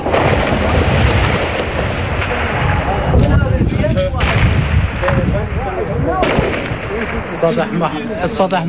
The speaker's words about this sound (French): rue Al-Riya au centre de Bagdad, une succession de tirs Kalachnikov peut-être mitrailleuse lourde, plus de 5 minutes d'échange de feu